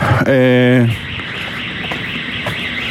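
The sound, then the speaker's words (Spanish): An alarm going off: a single steady, harmonic-rich electronic tone lasting about half a second, fairly loud, then cutting off into a continuous low background hiss. “otra vez la alarma.”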